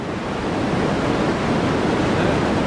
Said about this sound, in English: White noise sounds like this.